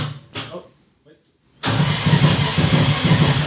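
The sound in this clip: A car engine, on a car that has been worked on a lot, cranks and catches after a brief voice and a short pause, then settles into a loud, rough, steady running rumble.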